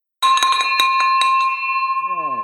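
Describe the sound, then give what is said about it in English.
A victory bell rung in celebration: many rapid, bright clangs over about a second, then a sustained metallic ringing tone that lingers, with a voice rising in near the end. “That is the victory bell, baby.”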